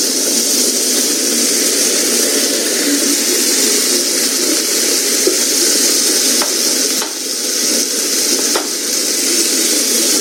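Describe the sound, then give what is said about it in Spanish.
Onion sizzles as it fries in a pan, a steady, loud, even hiss that runs the whole clip, broken by a few faint pops and crackles, with no voices. “Ok, ya que está así, le vamos a echar la cebolla.”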